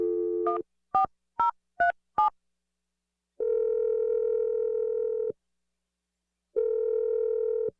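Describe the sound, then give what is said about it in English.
Telephone tones while a call is placed: a quick run of short dialing beeps, then two long, steady tones separated by a silent pause. “You ready to make this call? Yeah, I am. I'm dialing the number now.”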